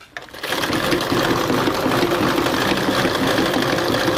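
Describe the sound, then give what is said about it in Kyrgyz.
A sewing machine stitches a traditional Kyrgyz belt, giving a steady, loud whirring hum with rapid mechanical chatter that runs continuously after a brief quieter start. “кемер тигип атам. Азыр оймалар түшүрүлөт, просто эле буну тигип атам”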